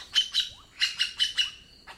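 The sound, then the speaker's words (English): Magpie jay calls ring out as seven short, bright chirps with a high whistled tone, in a quick pair, then a tighter run of four, then one last call after a pause. “Magpie jays have an astonishing vocal system. Male magpie jays are the big talkers. Each one may use more than 60 vocalizations.”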